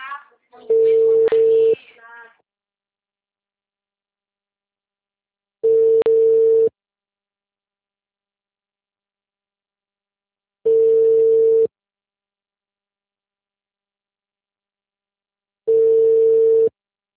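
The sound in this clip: Telephone tone after a dropped phone call: four one-second bursts at the same steady mid pitch, repeating about every five seconds with silence between. A brief, busier sound overlaps the first burst.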